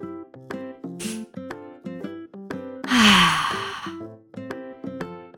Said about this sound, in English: Let's all take a big breath and think of something we love about being outside.